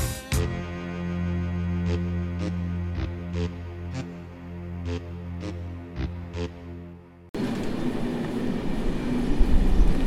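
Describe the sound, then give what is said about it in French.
A train from Paris pulls into a station, first a steady tonal drone broken by several sharp clicks, then a loud, broad rolling rumble. “Le train en provenance de Paris entre en gare.”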